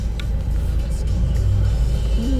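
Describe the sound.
Steady low rumble of a car driving along a road, an even, continuous drone with little change in loudness across the whole stretch and no clear voices.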